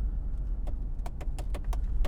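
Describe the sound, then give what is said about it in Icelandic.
A car driving, with a steady low engine and road rumble throughout and a series of light, sharp clicks or rattles on top in the second half. No voices. “ég er að keira hér upp á Fontana”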